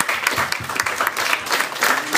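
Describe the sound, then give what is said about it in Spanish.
An audience at a talk about Marvel comics gives strong applause for a returning guest: brief, dense clapping from many hands with uneven accents, staying loud for about two seconds. “me gustaría pedirles en serio un fuerte aplauso para Spike”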